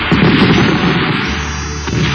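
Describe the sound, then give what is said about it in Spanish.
Firecrackers set off indoors in a living room during a family Christmas gathering: a loud, dense, continuous barrage of crackling pops and bangs that runs the whole way through without letting up. “no vas a tirar esos petardos adentro del living.”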